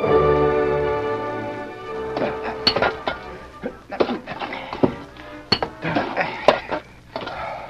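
Picks and spades strike earth and rock in irregular metallic clinks and dull thunks. The blows come at an uneven pace, with several sharper impacts standing out.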